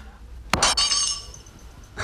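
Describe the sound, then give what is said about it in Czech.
Glass breaking into shards: a sudden sharp crash followed by bright tinkling fragments that ring and fade, with a further clink near the end. “Střepy znamenají štěstí.”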